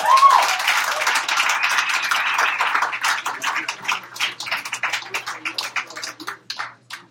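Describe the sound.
Applause for a poet about to read, starting as a dense burst of clapping that gradually thins into scattered individual claps before fading out.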